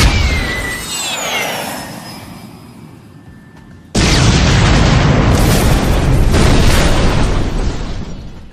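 A video-game weapon fires, first with a thin whistling whine over a low rumble. A sudden loud explosion then hits partway through and roars on as a broad, sustained blast before easing off slightly.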